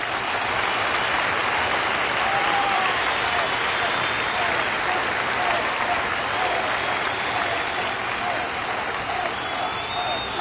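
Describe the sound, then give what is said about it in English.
An applause sound effect plays: steady, dense clapping from a crowd that stays loud and even for the whole stretch, with no voices standing out. “And I think that deserves a clap.”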